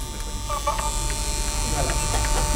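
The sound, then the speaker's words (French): A steady mechanical whir comes from an Ampex Nagra VPR-5 video tape recorder running with its cover open. It is a continuous droning hum with a faint tonal whine on top and no breaks. “Et cette machine qui marche très bien. Le Ampex Nagra VPR 5.”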